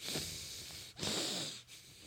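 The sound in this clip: A man's voice imitates heavy, rasping breathing, mimicking a sweating man in a sauna at the gym: loud, airy huffs repeat in a steady rhythm, with no speech.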